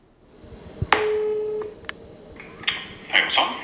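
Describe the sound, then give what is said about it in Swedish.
A phone line tone sounds while calling someone: a single steady mid-pitched tone lasting under a second, followed by a few sharp clicks and scattered handling noises. “Jag inser att jag måste ringa Gurun Per igen.”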